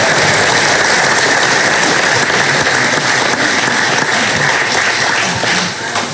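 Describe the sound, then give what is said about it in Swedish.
Dense applause from an audience thanking people at an event where county candidates from several political parties are presented. The clapping is loud and continuous throughout, with no break and no individual claps standing out. “Och vi tackar dem med en applåd igen.”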